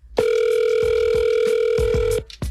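An outgoing telephone call rings with one long, steady electronic ring tone, loud and even, then cuts off abruptly, with faint rhythmic background beats under it as a winner is called on a radio show.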